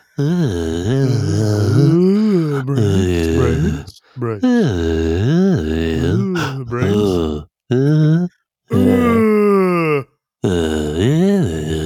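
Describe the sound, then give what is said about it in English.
People imitate zombie groans with long, drawn-out moaning voices that waver in pitch. The groans are loud and come in several sustained stretches separated by short gaps. “How does a zombie mingle? Make the noise. let's mingle like zombies.”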